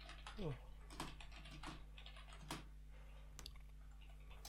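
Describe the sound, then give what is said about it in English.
Typing a search on a computer keyboard, with quiet, scattered key clicks spread irregularly across the moment over a steady low electrical hum. “I'm googling question mark drawing program.”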